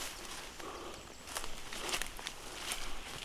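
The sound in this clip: Footsteps of a person walking outdoors in the mist, a steady series of soft, faint crunching steps with light rustling between them.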